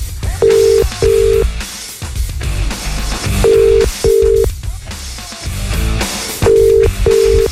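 Ringback tone of an unanswered telephone call: a steady mid-pitched tone sounds in pairs of short pulses, with the pattern repeating three times across the stretch.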